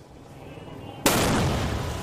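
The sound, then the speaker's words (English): A sudden loud blast as an armored truck loaded with illegal fireworks explodes in a Los Angeles neighborhood, following a quieter low rumble and giving way to a sustained, dense roar of noise. “Ooh, truck did go boom. Video here, sending debris for blocks away. The LAPD actually loaded the illegal fireworks into an armored...”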